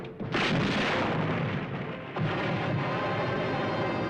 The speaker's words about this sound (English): The shelling hits the ship, several feet away from Lancer.